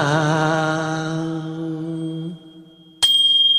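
A bell rings out in one bright, clear strike with a sharp attack and shimmering high overtones, following a long, wavering, sustained tone that fades away.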